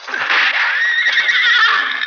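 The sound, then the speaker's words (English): A horse whinnies after being hit, one loud, sustained, high, wavering neigh lasting about two seconds. “Hit one of the horses.”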